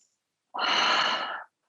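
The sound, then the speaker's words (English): A single deep breath taken in during a guided breathing exercise: one breathy whoosh lasting about a second, heard alone without talk. “First of all, we're going to take a deep breath together.”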